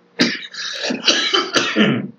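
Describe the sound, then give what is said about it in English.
A smoker's cough: a few harsh, raspy hacking bursts in quick succession, loud and phlegmy, with a rough throat-clearing quality between them. “smoker's cough.”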